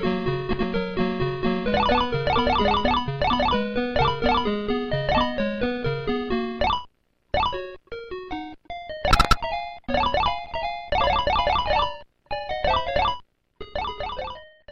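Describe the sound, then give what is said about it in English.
Sounds from the arcade video game Frogger: a bright electronic chiptune melody with rapid note runs, then shorter bursts of blips separated by brief gaps, with one sharp noisy burst in the middle. “So I'm sure that everyone already knows what this is, and the game is Frogger.”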